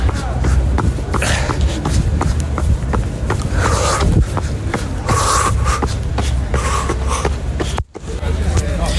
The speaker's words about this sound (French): Je suis en train de faire mon petit footing en train de courir au niveau des rues